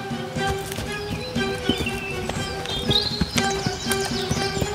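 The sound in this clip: Donkey hooves clop along while carrying six sacks of salt to market, many irregular, hollow knocks in a steady walking rhythm over a continuous background.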